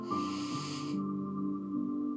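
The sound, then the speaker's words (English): A deep exhale out through the mouth during a guided relaxation breathing exercise: a soft, breathy hiss of about one second over sustained background tones, cutting off abruptly. “we'll take a nice deep breath in through the nose and really exhale now out through the mouth”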